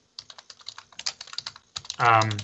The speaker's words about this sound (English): because we knew the typing. I'm just Googling it.